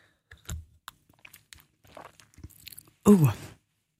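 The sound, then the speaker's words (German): Coffee from a Bialetti moka pot being sipped: a few faint clicks and small handling noises, then one short, loud slurping sip near the end. “hat mich heute Morgen aber überrascht und mir einen Kaffee gemacht mit seiner Bialetti. Ich nehme mal gerade schnell einen Schluck.”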